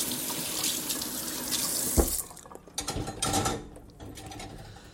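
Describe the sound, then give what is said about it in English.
Water runs from a kitchen tap as something is rinsed off while chocolate chip cookies are being made. A steady rushing hiss stops abruptly after about two seconds, followed by a few softer clunks and handling noises. “Rinse off a little bit.”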